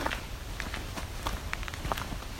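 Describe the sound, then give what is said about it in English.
Soft footsteps along a dirt lane with a grassy strip down the middle, through a swampy, flooded forest, the steps light and steady at a walking pace under a faint, constant background. “This is a very swampy area. Walking down what's basically looks like laneway. way, dirt road with a green patch down the middle.”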